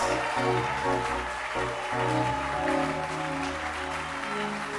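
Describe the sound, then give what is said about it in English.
Church audience clapping hands in celebration during worship, dense steady clapping under music with sustained held tones. “And let's celebrate Jesus. Hallelujah. Keep clapping your hands.”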